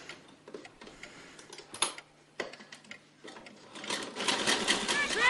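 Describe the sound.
A sewing machine runs as a young woman sits down to sew, giving a rapid mechanical clatter that is intermittent and fairly faint at first, then turns steady and louder toward the end.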